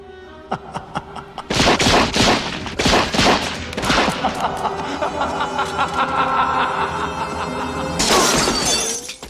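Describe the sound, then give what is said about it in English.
Gangsters fire Tommy guns in a radio drama, loud rapid volleys of crackling bursts with shattering crashes, then a long, dense burst of fire near the end. “the Shadow doesn't get shot by these gangsters with Tommy guns because he's like smoke and their bullets go right through him”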